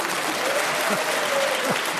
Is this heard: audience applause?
yes